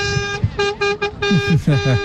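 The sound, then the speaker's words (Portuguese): A car horn honks in a series of short, steady, bright toots with brief gaps between them, loud, while voices talk over it. “Tá aí o buzinar. Pode buzinar, mano.”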